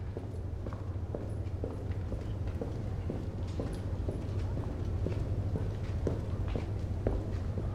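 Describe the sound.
People walk down a hall in a casino, their footsteps a steady series of soft, faint taps over a low background hum, with no talk.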